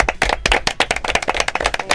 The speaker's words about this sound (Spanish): Y me gustaría daros un aplauso.